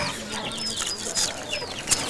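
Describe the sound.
Chickens clucking as they are about to be fed: a few soft, short clucks and chirps, fairly faint, with no voices over them.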